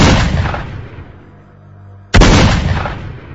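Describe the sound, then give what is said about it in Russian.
Two loud, booming rifle shots about two seconds apart, each a sharp blast trailing off into a long, decaying rumble. “И тут, совершенно неожиданно, слева от валуна ухнул ружейный выстрел. И тут же еще один.”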